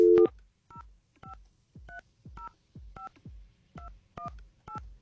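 Telephone keypad tones beep out as a number is dialed: nine short, evenly spaced dual-pitch beeps, each with a faint button click, after a louder opening tone.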